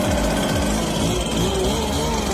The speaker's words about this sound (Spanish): El soplador de hojas trabaja el domingo, Edu.